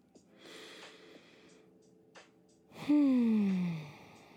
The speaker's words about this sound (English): And then we take a deep breath.